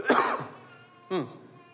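A cough and throat clearing from someone preaching a sermon: two short, rough bursts, the first louder and harsher and the second briefer, with quiet between them.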